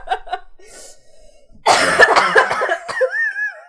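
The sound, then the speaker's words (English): Several people cough together in unison, a loud burst of overlapping coughs with sharp bursts of breath that starts abruptly after softer sounds, then fades into a wavering voiced tone at the end. “Coughing in unison, baby.”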